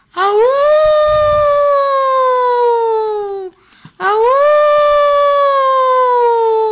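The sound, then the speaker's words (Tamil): A wolf howls twice, long and loud, each howl sweeping up quickly and then sliding slowly downward in pitch, with a short break between the two. “இங்க பாடுறா ஓநாய்.”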